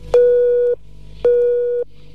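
Telephone line tone as a call is placed to a Warsaw prison: two steady mid-pitched beeps of about half a second each, separated by a short silent pause.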